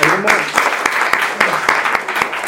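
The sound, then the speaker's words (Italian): Scattered applause from a small gathering at a church-related convivio, greeting a reflection on the Eucharist. Light, uneven claps with a voice speaking over the opening. “Facciamo un bel applauso.”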